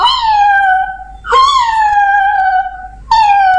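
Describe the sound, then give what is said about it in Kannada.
A voice imitates a cat's cry with three loud, drawn-out wailing meows. The first two are long with a slightly falling pitch, and the third is cut short. “ಅಂತ ಈ ತರ ಬೆಕ್ಕ ಶಬ್ದ ಮಾಡಿ ಕೂಗ್ತಾ ಇತ್ತು.”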